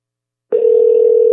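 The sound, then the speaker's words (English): An unanswered telephone rings on the caller's end: after a short silence, a single steady, low-pitched tone sounds and holds, loud and alone. “Four rings. Nobody answers after four rings. The first ring, he looks at it. Second ring, he's thinking about it. Third ring, he made up his mind.”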